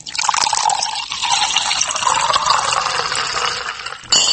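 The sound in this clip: Champagne poured for a New Year toast: a steady, hissing, fizzing pour that runs for about four seconds at an even level, ending with a brief louder burst.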